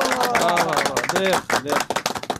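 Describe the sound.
Clapping for a correct answer in a quiz segment, with a loud voice first and then a quick run of sharp, separate claps near the end.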